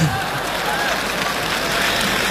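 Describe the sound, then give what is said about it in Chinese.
Audience applause at a Beijing TV New Year variety show: a dense, even wash of clapping that holds steady for a couple of seconds without a clear peak or break. “谢谢大家掌声的鼓励”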